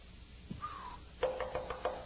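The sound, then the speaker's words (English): Knocking on a door: a quick run of faint, sharp raps in a steady rhythm, heard on their own after a short quiet stretch. “When I get out there and I knock on the door and someone says, I can't believe you came.”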